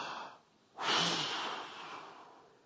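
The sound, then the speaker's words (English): A group of people takes a collective deep breath: a soft intake, a brief pause, then a loud, breathy exhale that slowly tapers away. “can we all just collectively take a deep breath? Ready? Here we go.”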